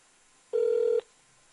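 A single steady telephone tone sounds for about half a second, a clean mid-pitched beep standing alone over faint background hiss.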